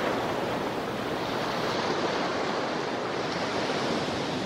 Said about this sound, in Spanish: Rugir de olas golpeando acantilados.